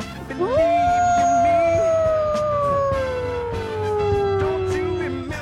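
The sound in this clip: A human voice imitates a howling animal. A single long howl sweeps up quickly, then slides slowly downward in pitch over about five seconds, loud and steady throughout.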